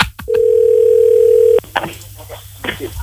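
A phone being redialed: a single steady, mid-pitched telephone tone holds for just over a second, then cuts off, followed by faint clicks and handling noise.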